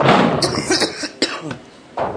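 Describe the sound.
Coughing played in slow motion: a few drawn-out, loud, rough coughs with low, stretched bursts, separated by short pauses.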